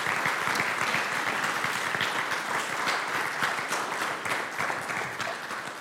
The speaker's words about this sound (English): would you give them a big round of applause?